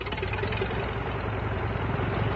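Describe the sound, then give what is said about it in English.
A steady, loud engine drone from an OX-5 aircraft engine on a training plane, running continuously with a dense, rumbling texture and no breaks. “And this is what was the first aircraft engine that many people all over the country, if not all over the world, heard. And it's the sound of the famous OX-5 engine.”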